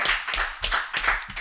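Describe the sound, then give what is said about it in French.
Hands clap in uneven bursts as a crowd is urged to applaud during a lively show: moderately loud claps in clusters separated by short gaps. “Applaudissez donc, tabarnak! Quelque chose! La foule en délire!”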